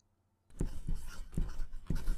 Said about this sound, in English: why are you writing all that?